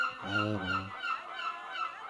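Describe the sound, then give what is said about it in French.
Seagulls calling: one loud, nasal, honking cry lasting under a second, followed by quieter, ragged calls that continue to the end. “alors on va faire honneur aux mouettes, hein. Elles sont là, les mouettes.”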